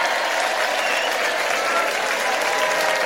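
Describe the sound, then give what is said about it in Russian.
Frenzied applause in a theatre: a dense wall of clapping from a full audience, loud and unbroken throughout. “Наконец раздались неистовые восклицания и аплодисменты.”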